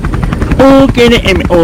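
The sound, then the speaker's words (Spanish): A helicopter flies overhead above city streets, its loud rotor chop pulsing steadily throughout. “Ya está su helicóptero, está sobrevolando su helicóptero, carnal.”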